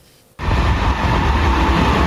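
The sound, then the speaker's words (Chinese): A passenger train, bound from Shanghai, pulls into the Lhasa terminal. A loud, dense rumble starts abruptly after a brief quiet moment and holds steady with heavy low-end roar to the end. “女士们、先生们，本次列车即将到达终点站拉萨站，请您整理好随身物品。”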